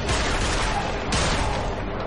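Gunfire in a horror film fight scene against vampires: a dense, loud, continuous barrage of overlapping shots, with a sharp fresh blast about halfway through.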